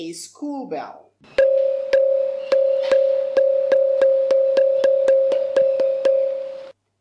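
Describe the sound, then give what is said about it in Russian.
A small school bell rings with many rapid, evenly repeated strikes over a sustained ringing tone for about five seconds, after a brief voice at the start. “А этот звук похож на школьного колокольчика.”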